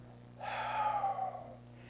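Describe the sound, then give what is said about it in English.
A person inhales a single breath: a soft, airy hiss that swells, holds for about a second, then fades, quiet and alone without talk. “Life is lived in the rhythm of breathing. Inhale.”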